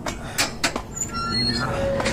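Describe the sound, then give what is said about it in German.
A door is opened with a few quick clicks and knocks, followed by a sustained rushing noise with a thin, faint squeak near the end. “Er stand auf, ging zur Tür und öffnete sie.”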